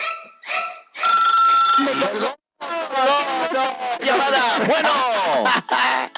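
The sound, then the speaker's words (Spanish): A telephone rings on a call-in line with a bright, sustained tonal trill, then excited voices burst in, loud and overlapping, with other sounds mixed underneath. “¡No, no, no! ¡Llamada!”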